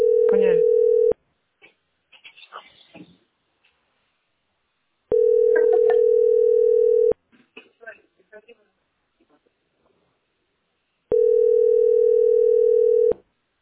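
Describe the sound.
A telephone tone plays while a call is being placed, as three long, steady beeps at even intervals. People talk in the gaps between the beeps.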